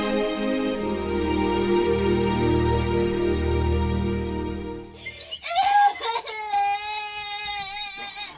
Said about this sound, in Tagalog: Yes, Apo. Tahan na. Huwag ka na kumiyak.